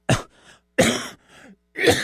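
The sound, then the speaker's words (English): Three short, harsh coughs from someone recovering from an illness, spaced just under a second apart. Each is a sharp burst followed by a softer, raspy tail. “Excuse me, that's every once in a while I still cough a little bit”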